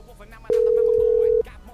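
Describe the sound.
Ringback tone from an outgoing telephone call ringing out: a single steady mid-pitched tone lasting just under a second, rising abruptly from a quiet background and cutting off cleanly.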